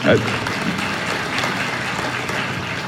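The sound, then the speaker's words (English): Church audience applause: a steady, moderately loud wash of many hands clapping together that holds evenly throughout. “I don't say that to garner your applause.”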